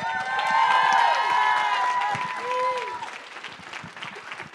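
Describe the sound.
Audience applause welcoming guests, a loud, steady stretch of clapping mixed with cheers and rising whoops that slowly eases off towards the end.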